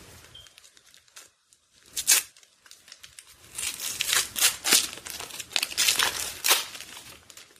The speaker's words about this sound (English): Okay, I think there's one last little package here.